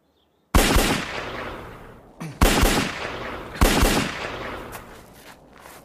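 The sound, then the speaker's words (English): Three loud handgun shots at firing practice, each a sharp crack followed by a long, fading rumble, spaced more than a second apart with no voices between them. “And again. Now cock the gun, pointing into the ground 3 yards ahead of you. Take up a firing position, keeping the arm straight. Pointing the gun but not aiming it. Fire off one magazine”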